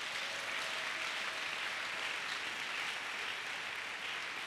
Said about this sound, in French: Un Dieu comme ça mérite de bonnes acclamations. Vraiment. De bonnes acclamations.